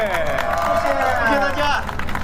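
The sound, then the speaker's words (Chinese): Applause and crowd noise for a live band at a stage show in Shenzhen, steady clapping throughout with a voice carrying over the top. “再次掌声送给日光大乐队。”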